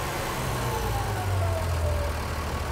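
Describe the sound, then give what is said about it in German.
Engine throttled back to idle after a test run, a steady, low rumbling drone whose tone slides gradually downward as the revs settle, with no voices. “Kannst Gas wegnehmen. Lang, ne? Gehen wir runter auf Standgas.”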